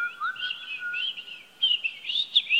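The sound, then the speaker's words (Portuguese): Birds chirp in trees with a few short, clear, high whistled calls and trills, sounding alone without voices. “Filhos, olhem nas árvores, pássaros são lindos.”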